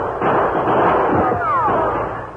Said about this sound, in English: As Ray Alton fired again and again, the Lone Ranger waited.